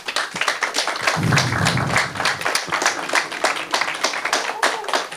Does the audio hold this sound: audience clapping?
yes